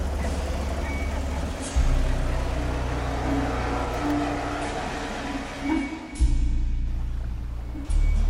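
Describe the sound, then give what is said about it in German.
Engine rumble of a Mercedes with diplomatic plates driving through a barrier onto factory grounds, a steady low drone that shifts in level and tone a few times, with no voices. “Nach einer halben Stunde hielt ein Mercedes am Schlagbaum. Ich erkannte ein Diplomatenkennzeichen. Der Mercedes fuhr auf das Betriebsgelände.”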